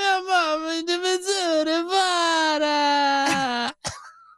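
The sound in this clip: A voice imitates a child's whine in the Italian style, a long, loud, wavering moan on a drawn-out vowel. It holds alone before breaking off abruptly with a short, sharp sound at the end.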